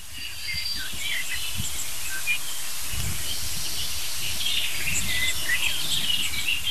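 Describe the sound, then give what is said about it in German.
Blackbirds giving scolding alarm calls, many sharp high chattering notes scattered throughout, over a steady hiss of insects and faint rustling. “Stattdessen höre ich schimpfende Amseln.”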